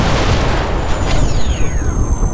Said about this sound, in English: A massive explosion shoots out of the top of the ship, bringing the whole thing crashing to the surface of the golf planet.